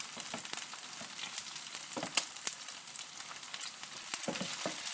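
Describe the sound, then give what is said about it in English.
Meatballs fry in too much oil, the fat spitting and crackling steadily with many small sharp pops over a soft continuous sizzle. “But I've probably put too much oil in there, it's probably spitting a bit too much.”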